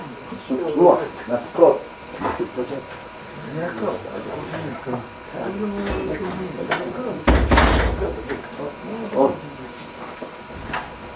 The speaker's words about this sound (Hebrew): אתם מרשים לסגור את הדלת?